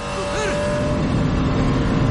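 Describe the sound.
A car accelerates in a tense crime-drama chase, a continuous loud, low engine roar, with a voice briefly heard over it at the start.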